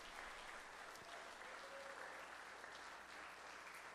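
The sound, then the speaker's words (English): Steady applause from a church audience welcoming guests during a service, a dense, even patter of clapping that runs without a break for about four seconds at a fairly low level. “Can we give all of our guests a welcome today? Can you give them a hand?”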